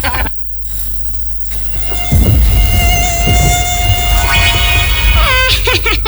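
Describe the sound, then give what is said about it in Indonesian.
A mosquito's high, thin buzzing whine, steady and sustained over a low, rumbling background, with the pitch wavering more toward the end. “Kenalkan, aku nyamuk garong, suka darah manusia.”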